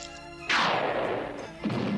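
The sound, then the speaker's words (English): A weapon blast fires during an animated robot battle: a sudden loud burst with a crashing, sweeping noise that decays, then a second swell of noise near the end. “Who could be firing on us?”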